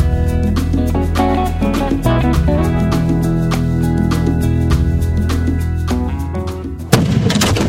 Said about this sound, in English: The rocket's red glare, the bombs bursting in air, give proof that it's the 4th of July.